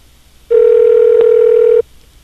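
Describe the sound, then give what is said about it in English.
A telephone dial tone heard while a call is being dialed: one steady, loud, buzzing tone that holds for just over a second and then cuts off abruptly, with quiet before and after. “I'm dialing.”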